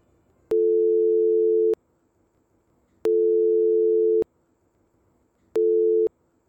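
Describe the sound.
Telephone ringback tone of a call placed to someone on a campus: a steady low electronic beep in three long pulses with silent gaps between them, the last one cut short, with no voices.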